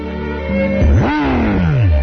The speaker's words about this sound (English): Followed by footage of Roy being mauled by a tiger.